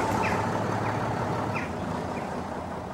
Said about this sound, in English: The bus lets him out at the side of the road. He waits for it to drive on.